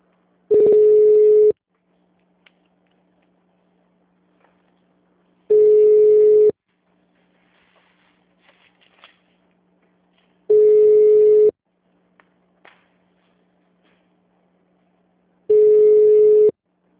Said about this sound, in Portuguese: Por favor, aguarde enquanto a sua chamada está sendo conectada.